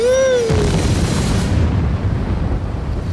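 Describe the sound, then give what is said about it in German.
A bomb explodes aboard a ship that starts to sink. A falling, whistle-like tone gives way to a loud, broad, roaring blast whose hiss dies away while a low rumble continues. “Die Bombe. Ein Zittern lief durch die Kalispera. Sie begann zu sinken.”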